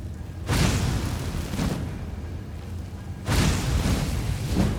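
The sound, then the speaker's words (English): Fire roars as the floor is set alight in a video game, a broad whooshing rumble that surges loudly twice over a continuous crackling bed of noise. “Now, if I can set the floor on fire.”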